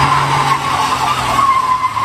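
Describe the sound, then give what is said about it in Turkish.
Tires screech as a luxury car drifts on a street at night in Istanbul's Güngören district, a loud, continuous squeal lasting the whole clip over a low engine drone. “Lüks aracıyla caddeye gelen sürücü gecenin sessizliğini drift sesiyle bozdu.”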